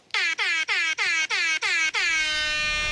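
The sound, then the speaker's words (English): Air horn blasting as part of a prank: seven loud, piercing blasts, the first six short and evenly spaced in quick rhythm, the last held steady to the end, with no talk over them. “I just got hit with the air horn plant prank.”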